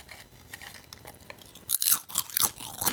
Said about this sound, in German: Ich habe ja ein Schälchen vorbereitet. Ja, okay. In dem Fall mit Chips. Ich mache das mal vor. Ich habe jetzt nichts im Mund und Achtung, ohne Hände.